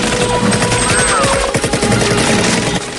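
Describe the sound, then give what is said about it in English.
Loud gunfire in a Rambo film scene riverside firefight, dense rapid bursts of automatic shots running almost continuously, with a sustained tonal layer beneath. “Rambo leaps over a rock and returns fire.”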